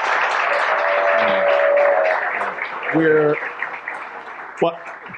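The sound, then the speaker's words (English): A university audience applauds a guest speaker with a steady wash of clapping, while voices rise briefly over it. “Please give him a round of applause.”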